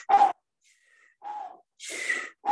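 Deep, forceful breaths drawn and released at the start of a hypoxic breathing exercise done in 30 rounds; a few loud, airy huffs are separated by brief silences, with no other sound.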